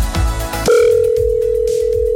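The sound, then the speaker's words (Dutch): A telephone call rings out while waiting for an answer: after a brief jumble of sound at the start, a loud, steady single-pitched line tone holds unbroken to the end. “En we gaan gewoon even bellen om te kijken of er opgenomen wordt.”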